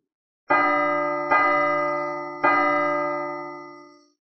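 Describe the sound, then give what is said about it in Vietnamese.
Great bells toll from afar in three deep, resonant strikes. Each stroke blooms loudly and then hums on in a long, slowly fading ring, with no voices heard. “Vào thời khắc này, từng tiếng chuông hùng vĩ từ đằng xa truyền đến, vang vọng giữa không trung, toàn bộ Tu La Thành”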